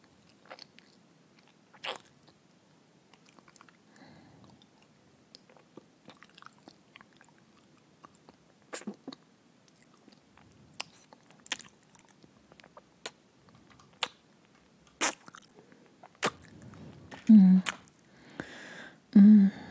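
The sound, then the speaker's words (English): Wet kissing sounds, sparse soft smacks and lip clicks separated by near silence, growing more frequent and a little louder toward the end. “So, how about another kiss?”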